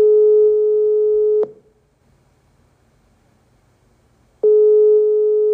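Telephone ringback tone while a call connects: a loud, steady, pure beep lasts about a second and a half, then a pause of roughly three seconds, then the same tone returns.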